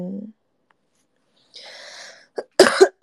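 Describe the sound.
Coughing from phlegm in the throat: after a quiet gap and some faint breathy noise, a short, fairly loud burst of a few harsh coughs comes near the end.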